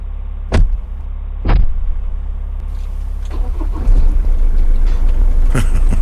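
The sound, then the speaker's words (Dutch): A car pulls away to clear the road after blocking traffic. Two sharp knocks come early, then a steady low engine rumble runs throughout, with rising noise and brief bursts near the end. “En nu zal ik eens gauw mijn wagen voor de uwe wegrijden”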